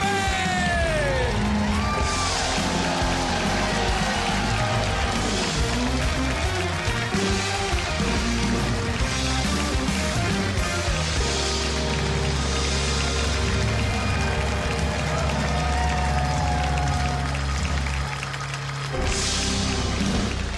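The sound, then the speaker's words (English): A live audience at a country music show cheers, whoops and yells loudly and continuously for the full stretch, a dense wall of crowd noise. “What a great crowd we have here tonight.”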